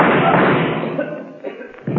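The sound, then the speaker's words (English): A gunshot inside a steel vault, heard as a loud, dull, muffled burst of noise that is already sounding at the start and fades away over about a second, followed by a few faint low thumps. “So, Kelvin, you shot Berger and added murder to your other crime.”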